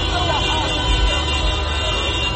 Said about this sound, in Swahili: Mamia wakazi wa Algiers, mji mkuu wa Algeria, waliposikia tangazo hilo walijitokeza usiku ndani ya magari yao wakipiga honi na makelele kusherekea.